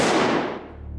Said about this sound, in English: Instead, I shot a picture on the wall.